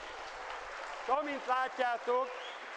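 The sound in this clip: An audience applauds after a physics demonstration shot with a dense, steady wash of clapping, and a voice speaks over it in the second half.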